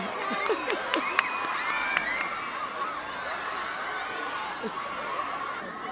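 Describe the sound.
A large crowd cheers and shouts to welcome a woman's arrival, a dense, steady roar of excited voices and chatter that keeps up throughout.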